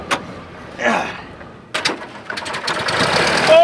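An old sedan's engine is started with a hand crank. A few sharp clanks from the crank give way to the engine catching in a rattling, mechanical chatter that builds louder toward the end.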